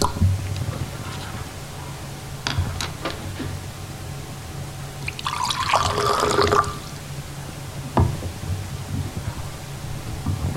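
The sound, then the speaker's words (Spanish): A champagne bottle is uncorked and poured on an outdoor patio at night: a few sharp clicks, then a bubbling, fizzing pour lasting over a second, another click later, over a steady low hum. “Descorchan una botella de champán para celebrar el encuentro.”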